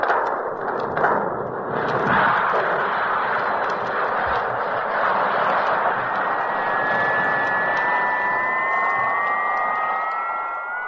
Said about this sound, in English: Stand by for low velocity takeoff. Firing rockets.